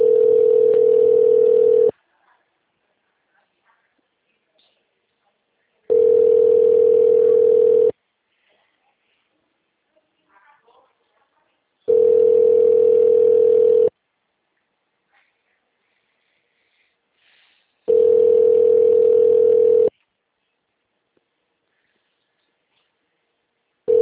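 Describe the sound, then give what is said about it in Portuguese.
A telephone line tone plays as a call connects: four identical steady mid-pitched hums, each about two seconds long, separated by longer silences, alone and clear. “Olá, você ligou para a Anex. Para sua segurança, informamos que esta ligação... Conectando.”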